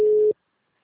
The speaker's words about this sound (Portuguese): Eu tô ligando, só tá chamando.